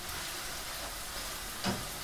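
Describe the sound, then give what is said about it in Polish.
Faint steady sizzle of a crepe frying in a pan on its second side, a soft continuous hiss with one brief click near the end. “I smażymy sobie z drugiej strony.”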